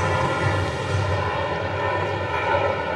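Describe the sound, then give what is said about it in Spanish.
An airplane flies over a baseball game, its engine a steady low drone with faint tonal lines that holds at an even loudness through the whole clip. “Mira el otro avión, Quiñones, mira, usted lo puede sentir, escúchelo.”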